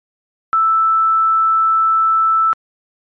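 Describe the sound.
A steady sine tone at the sixth harmonic, pitched on the note E, sustains evenly for about two seconds at a constant loud level, starting and stopping sharply with nothing else audible.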